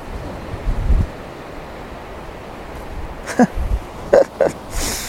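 Wind blows across a hilltop, buffeting the microphone with a steady rushing hiss. A few low, rumbling gusts swell and fade, and short bursts of noise break through.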